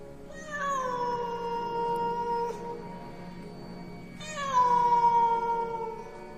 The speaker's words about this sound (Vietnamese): Con mèo đen vẫn ngồi ở đó trên ban công, nhìn chằm chằm vào trong phòng. Thỉnh thoảng nó lại kêu lên những tiếng nghe đến sốt cả ruột.